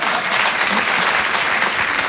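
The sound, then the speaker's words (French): Audience applause for an elderly man presented on stage, a brisk, dense and continuous clapping at a steady level. “Ah, regarde, on peut l'applaudir, mon Dédé.”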